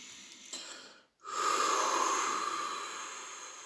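A big, forceful exhale during guided breathing: after a softer breath and a brief silence, a loud, steady, airy hiss that slowly fades over more than two seconds.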